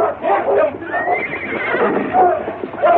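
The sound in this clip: A horse whinnies in a radio drama Western chase scene. The neigh is loud, high and wavering, rising and falling over about three seconds.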